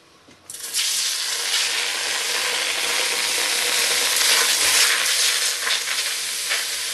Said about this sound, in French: Je prends les tomates fraîches, préalablement pelées et évidées, et je les fais revenir légèrement.